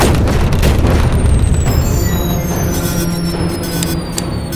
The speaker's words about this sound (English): Captain, shields are at full, but they seem to have hit us with some kind of EMP projectile.